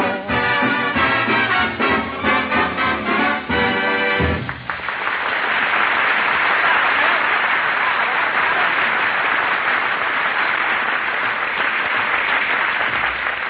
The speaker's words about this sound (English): He even puts applause on the record.